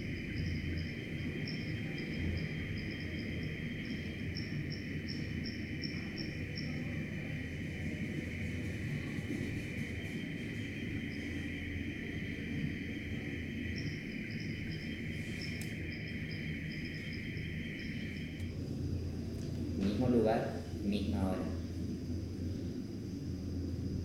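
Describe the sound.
Insects chirp in a steady, shrill, high-pitched drone with pulsing trills, over a low continuous rumble, and a brief louder noise passes near the end.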